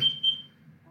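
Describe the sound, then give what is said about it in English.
Two short, high-pitched beeps from a smoke detector in quick succession near the start, followed by a faint low hum. “I'm sorry about that smoke detector, you guys. I'm working on that.”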